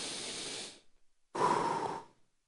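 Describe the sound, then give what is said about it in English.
A deep breath drawn in and then let out: one long breathy inhale, a short pause, then a fuller, louder exhale of similar length, with no talking. “Would you just take a deep breath and let it out with me? Just go.”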